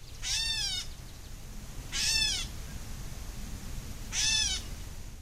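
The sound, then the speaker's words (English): A gray catbird gives three cat-like mewing calls, each a short, nasal, slurred note, spaced evenly by pauses of over a second against a quiet background. “I want to give a listen to one more audio clip here. We've got the gray catbird.”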